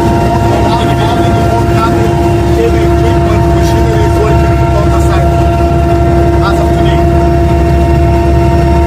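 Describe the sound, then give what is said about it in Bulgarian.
Heavy construction machines working along a gas pipeline route give a loud, steady droning engine hum, with a voice speaking over it. “Над 1400 машини работят в момента, тежки машини.”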